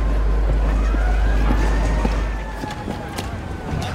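An ambulance siren wails faintly, its rising and falling tone buried under dense, continuous noise and a heavy low rumble that eases slightly partway through.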